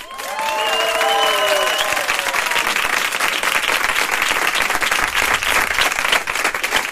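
A large crowd applauds: dense, steady clapping swells in within the first moment and continues loudly and evenly to the end.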